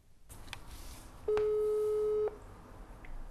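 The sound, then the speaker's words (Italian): A telephone ring tone sounds while calling a friend: one steady electronic tone lasting about a second, rising clearly above a faint background, with no voices. “Chiami un tuo amico milanese.”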